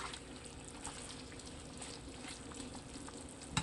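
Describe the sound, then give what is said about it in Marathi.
Chicken simmers in a pan over a low to medium flame, giving a quiet, steady bubbling hiss with soft liquid ticks throughout. “Chicken शिजून तयार आहे. Low to medium फ्लेमवर शिजवायचं आहे.”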